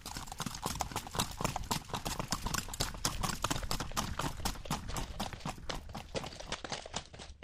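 Hooves of a criollo mare trotting and galloping on an unpaved dirt road: a fast, steady run of many crisp clip-clop beats at an even rhythm throughout, fairly faint.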